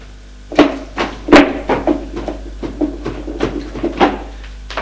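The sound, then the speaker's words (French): A cupboard is opened, giving a run of wooden knocks, clunks and rattles of uneven spacing over a faint steady hum. “Ouvre le placard pour prendre ses affaires.”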